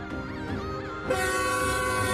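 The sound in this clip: A train on the Qinghai-Xizang Railway sounds its horn with a wavering tone, then a louder, fuller roar of the passing train takes over midway and holds steady.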